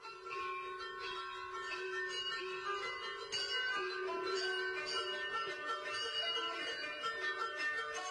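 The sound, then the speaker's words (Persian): Camel bells ring faintly and continuously, with many overlapping metallic strikes in a steady jingle and no clear pauses. “گوش ابو طالب را زنگ پای شتران و آهنگ کلام بهیرا پر کرده بود.”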